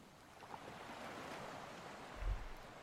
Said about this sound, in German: Wie das Wasser unterschiedlich an den Strand gespült wird. Mal etwas mehr, mal etwas weniger.